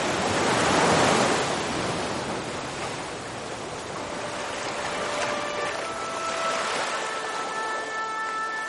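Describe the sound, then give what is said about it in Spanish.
Waves of the Cantabrian Sea surge in a continuous roaring wash of surf, swelling loudest early on, then easing into a steady, rolling rush that carries on without break. “¿Te parece si te dejo con el impresionante sonido del Cantábrico? Porque digo yo que si puedes escucharme a mí, también puedes escucharlo, ¿no?”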